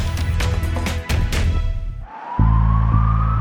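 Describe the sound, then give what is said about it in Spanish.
An ambulance siren: after a stretch of loud, dense noise, a steady wailing tone slowly rises in pitch over a low rumble. “Esa es una ambulancia. Allí va alguien que necesita ayuda urgente.”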